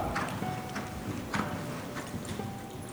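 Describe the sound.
Horses' hooves clip-clop under riders, a loose, uneven pattern of soft hoof strikes heard over a steady background noise.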